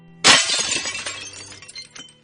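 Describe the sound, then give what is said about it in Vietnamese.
A ceramic cup smashing into pieces against someone's head: one sharp, loud crash, then scattered tinkling shards that fade out over about two seconds. “Chưa dứt câu thì xoảng một cái, một cái chén đập thẳng vào đầu kẻ vừa mới nói dở toang thành nhiều mảnh”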